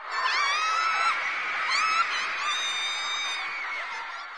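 A group of girls screaming and cheering excitedly, with many overlapping high-pitched shrieks and squeals merging into a continuous, loud wall of sound from start to end.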